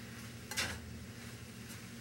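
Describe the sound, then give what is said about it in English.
A spoon stirs browned meat back into tender vegetables in a pot, giving a few faint, brief scraping strokes over a low steady hum. “Now you're going to stir the meat back into the vegetable dish.”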